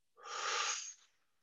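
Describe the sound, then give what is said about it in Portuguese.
One deep breath drawn in during a relaxation induction, a soft, breathy rush lasting under a second, faint and alone. “Puxa o ar,”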